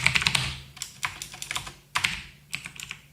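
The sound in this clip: Typing on a computer keyboard: many crisp key clicks in quick bursts separated by short pauses, fairly loud and alone with no talk.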